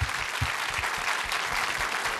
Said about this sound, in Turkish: Alkışlar Zahmet Nısıbaş için efendim.